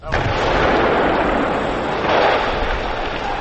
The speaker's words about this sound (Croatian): Prve minske eksplozije na vratima tunela Karaula u podnožju istoimenog prevoja između Olova i Kladnja označile su početak radova na izgradnji najzahtjevnijeg saobraćajnog objekta na magistralnom